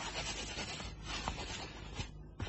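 A pen scratches across a document in continuous, scratchy writing strokes, faint and steady with a few brief heavier marks.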